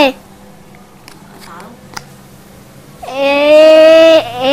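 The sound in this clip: A toy puzzle's sheep bleat sounds once, loud and electronic, a single wavering tone lasting about a second after a mostly quiet stretch.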